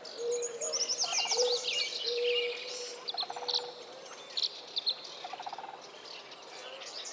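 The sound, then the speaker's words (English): Tree swallow singing from a nest box by an alfalfa field, a stream of high, liquid twitters and short trills repeated many times at a moderate level. “Nez Perce country, I can hear a tree swallow again, singing from the nest box by the alfalfa field.”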